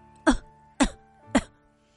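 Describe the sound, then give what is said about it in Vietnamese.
A woman coughs harshly: three short, rough, throaty bursts spaced evenly apart, each loud and abrupt with a raspy edge, with no talking. “Tiếng Tô phu nhân hung hăng ho khan truyền đến, lời Lưu Tẩu bỗng nhiên bị cắt đứt.”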